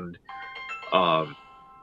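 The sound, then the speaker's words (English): A mobile phone rings with a short electronic ringtone: a few sustained, clear tones at changing pitches, ending with a louder, brighter burst before it stops. “and apparently DJ's phone's going off. No, it was mine too.”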